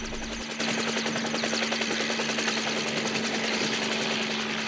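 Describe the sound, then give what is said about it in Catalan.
Helicopter rotor blades chop rapidly and steadily as the aircraft lifts into the sky and flies overhead. The loud, continuous pulsing sits over a sustained engine hum, with no voices. “Les aspes d'un helicòpter s'eleven cap al cel.”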